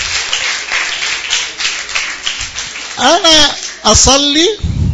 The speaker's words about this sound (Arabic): برافو حبيبي، انا عايز سقفة جامدة خالص.